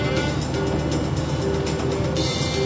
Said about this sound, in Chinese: 现在大家来陪伴飞利浦这一趟并不很舒服的汽车旅途吧。